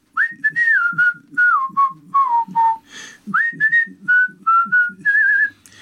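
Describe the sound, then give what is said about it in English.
A person whistles a lively tune of many short, clear notes in quick phrases, with pitch bends and slides between notes. It is loud and alone, with no talk. “He's just showing off that he can whistle.”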